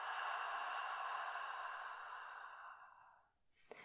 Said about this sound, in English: Inhale through your nose. Exhale out the mouth.